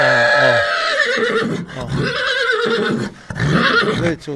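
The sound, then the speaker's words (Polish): Horses whinnying near a farm where older mares were kept for breeding, with a few loud neighs whose pitch wavers and drops, followed by continuous lower snorting and whinnying sounds. “Czuję konie, bo konie są blisko.”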